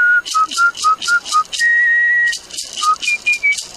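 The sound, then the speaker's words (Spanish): A man whistles a tango melody: a run of short, clipped notes, then a long held tone, then a few higher notes. A rhythmic rattling accompaniment pulses loudly beneath the tune. “con su silbido, interpreta tangos,”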